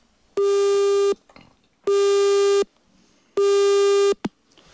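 Telephone busy tone from a failed phone connection: three loud, steady electronic beeps of equal length, separated by short silent gaps, followed by a brief click.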